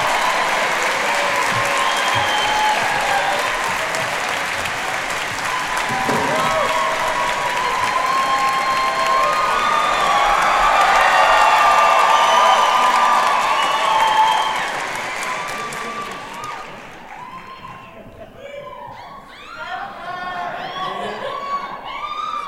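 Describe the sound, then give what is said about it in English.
A theater audience at a live show at the Wiltern Theater applauds and cheers, swelling to a loud peak midway. After about fifteen seconds it fades into scattered clapping and chatter. “Let's hear it for the two people that make our podcast so great Sona Movsesian and Matt Gourley.”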